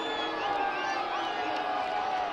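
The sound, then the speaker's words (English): Baseball crowd reacting to an umpire's call on a close slide at home plate, a sustained, even roar of many voices at moderate level with no clear peaks. “Crowd not a fan of the call, however.”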